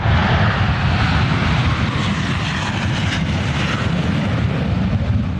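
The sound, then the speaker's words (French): A loud, continuous roar from an FA-18 fighter jet at an airport. The roar is broad and steady, holding its power throughout with no talk over it. “Ce que vous entendez là, c'est le bruit d'un FA-18 à l'aéroport de Payerne.”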